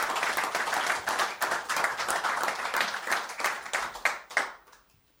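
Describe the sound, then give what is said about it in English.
Audience applause at a live concert, a dense, steady clatter of many hands clapping that holds for several seconds before thinning out and fading away near the end. “So here's a, how about a hand for WXPR and the you and all you guys sitting in the audience.”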